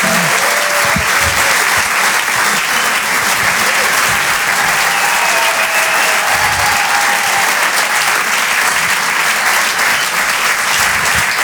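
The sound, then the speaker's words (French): Loud, sustained audience applause for a comedian at a comedy club at the Apollo Théâtre in Paris: a thick, even wash of clapping that holds steady from start to finish. “Faites du bruit, s'il vous plaît, pour Reda Sediki.”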